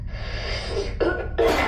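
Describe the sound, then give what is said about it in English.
A few harsh, raspy coughs from someone feeling ill who coughs out smoke: a long rough burst, then two shorter ones, loud and alone. “I don't know what that is. I coughed out smoke.”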